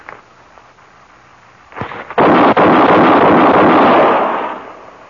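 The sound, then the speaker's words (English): Gunshots are fired from a loaded gun. A few sharp cracks lead into a loud, roaring burst of noise that holds for a moment and then fades away. “How many bullets did you have in there? Five. Is the other gun loaded? Do you mind doing that again?”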